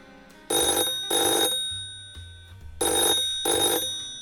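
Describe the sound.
A telephone rings on an outgoing call: four bright, buzzy rings grouped in two pairs, with a pause between the pairs and a faint low hum underneath.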